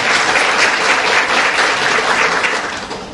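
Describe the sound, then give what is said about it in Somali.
Steady, full applause from an audience clapping for the director at a Somali-speaking gathering, sustained at an even level before easing slightly toward the end. “Marka agaasimaan in loo sacbi waa mudan.”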